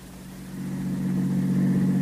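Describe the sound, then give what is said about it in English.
A new car's engine runs with a steady, low hum that grows slightly louder over the first second and then holds evenly, with no voices. “how do you like the new car”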